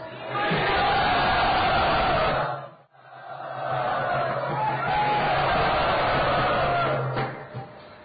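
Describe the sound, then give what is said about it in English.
A crowd at a Vaishnava gathering shouts and cheers loudly to welcome special guests, in two sustained bursts of massed voices separated by a brief dip near the middle. “Let us very, very enthusiastically and loudly welcome all of these special guests.”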